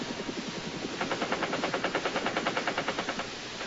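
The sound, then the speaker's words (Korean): A helicopter machine gunner fires downward from a Chinook helicopter in a rapid, even stream of sharp pulses over a broad, rushing roar. “그런데 헬기의 기관총사수가 아래를 향해서 마구 총을 쏘아댑니다.”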